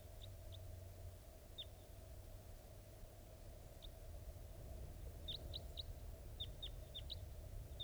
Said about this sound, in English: I think wild birds are flying around somewhere nearby. Yeah, I hear wild type 2s.